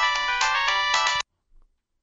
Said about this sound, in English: I hung up the goddamn thing. I don't want to take any phone calls.